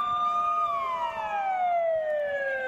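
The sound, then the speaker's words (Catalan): Fire engine siren wails at a protest by about 200 regional firefighters in Barcelona, a loud, steady electronic tone that holds its pitch briefly, then glides steadily downward through the rest of the sounding, with no voices. “És el so de la protesta d'uns 200 bombers de la Generalitat. Reclamen millores laborals i també que es millori el material als parcs amb els que treballen.”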